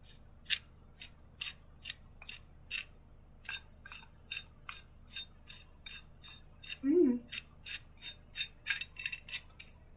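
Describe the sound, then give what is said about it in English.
A medium-sized pipe wrench is handled, making many sharp metallic clicks and clinks in an irregular rhythm. “this is a pretty, it's kind of a medium sized pipe wrench”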